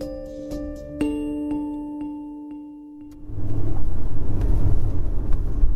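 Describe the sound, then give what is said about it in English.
Car engine and road rumble on a drive through the Bay Area town of Los Gatos, a steady low roar that swells in after a few seconds of ringing chime tones. “It's late October, and I'm driving through the wealthy Bay Area enclave of Los Gatos with my podcast manager, Matt.”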